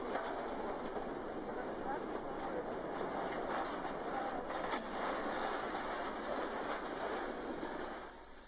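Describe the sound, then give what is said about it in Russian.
Rail wagons braked by a speed retarder during shunting. Steady, loud rolling rumble runs throughout, with thin, high squealing tones sustained above it and occasional sharper metallic accents. “Давайте понаблюдаем, как выполняется торможение вагонов регулировщиком скорости.”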